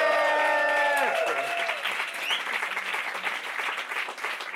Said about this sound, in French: Bonne main d'applaudissement pour Paulette!